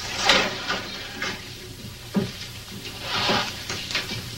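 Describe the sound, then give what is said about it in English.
A guidance counselor opens a cabinet and pulls out a file folder: a few scraping, rustling bursts with soft knocks, spaced unevenly and heard alone. “Soon after, a guidance counselor opens a cabinet and pulls out a file folder.”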